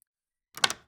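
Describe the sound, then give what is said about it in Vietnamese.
A door being opened in a short burst of clunking and rattling that lasts under half a second, with a few quick peaks, after near silence. “Bỗng dưng có tiếng mở cửa, có người bước vô.”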